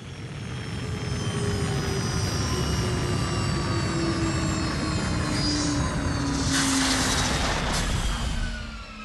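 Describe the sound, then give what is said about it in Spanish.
A spaceship landing sound effect: a loud, continuous jet-like engine roar with droning tones and a rushing whoosh that swells in the latter half before easing off at the end. “La nave aterrizó muy suavemente”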